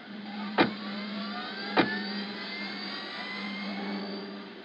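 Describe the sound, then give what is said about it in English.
Car driving off as a radio drama sound effect: two sharp knocks early on, then a steady engine drone with a faint whine running on alone. “Come, I'll give you a ride. Driver, to Titan Square.”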